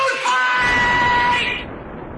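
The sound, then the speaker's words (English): A man yells loudly in a played movie clip. The single sustained, strained shout lasts about a second and a half, then gives way to a steady wash of broad noise. “Two guys who get a little emotional when they hear John Belushi yell,”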